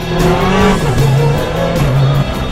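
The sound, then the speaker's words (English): Car skidding sideways and accelerating hard on a race track, a loud, continuous engine roar whose pitch wavers and climbs, mixed with squealing tires and no voices over it. “Massive skids around the first corner, it's amazing! Oh my god, it's so fast! We're going completely sideways!”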